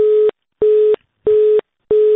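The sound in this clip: A telephone busy tone after a call is cut off sounds as four evenly spaced, steady beeps of a single mid pitch, loud and alone with silent gaps between.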